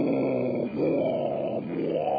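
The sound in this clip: A human voice imitates whale sounds made by an alien probe from space: continuous, drawn-out, wavering moans that swell and dip a few times, with no words.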